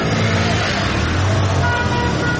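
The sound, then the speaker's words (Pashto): Cars idling and passing a security checkpoint in Ghazni city give a continuous, steady rumble of engines and road traffic, with no clear breaks. “د غزنی ښار امیر محمد خان کلا سیمه کې تلاشی مرکز ته څیرمه یو شمیر موټران ولاړ او ډیری نور له تلاشی کولو څخه وروسته تیریږي”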